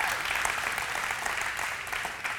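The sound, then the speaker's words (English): A church audience applauds a staff member. Clapping blends into a continuous, even patter that stays steady and fades slightly toward the end. “we can give her a round of applause for all that she does”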